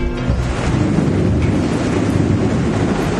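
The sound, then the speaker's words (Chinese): A heavy summer rainstorm at the Yungang grottoes pours down in a dense, steady roar of rushing noise, loud and unbroken, with no voices. “哎， 这么大的雨好多年没有下过了，我还是不放心的。”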